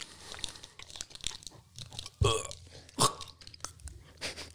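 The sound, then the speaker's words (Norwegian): Crunching and chewing of a matcha-flavoured KitKat wafer bar, with many irregular crisp bites and chews and two louder, sharp crunches standing out, heard alone without talk. “Jeg smakte matcha KitKat. Jeg smaker den.”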